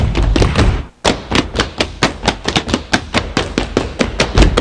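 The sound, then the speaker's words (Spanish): Stamping footwork from a traditional Tibetan group dance with no music: many sharp, heavy thuds of feet striking the floor in a quick, steady rhythm, with a brief pause near the start, loud and alone. “dejando únicamente el sonido puro y auténtico del sabateado.”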